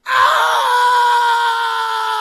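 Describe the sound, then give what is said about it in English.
Football fans screaming in a highlight video: one long, loud scream that starts abruptly and holds steady for about two seconds before easing slightly. “Titan fans with a highlight video and just the collective scream of a desperate fan base.”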